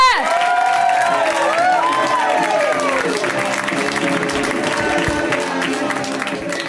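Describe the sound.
Audience applause and cheering welcome a comic to the stage at a stand-up comedy show. The clapping is dense and steady, with a few high whoops near the start, and it eases slightly toward the end.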